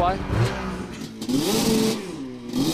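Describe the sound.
A snowmobile engine revs at a watercross race, its whining tone surging up and falling back in several repeated rev cycles, loud and continuous.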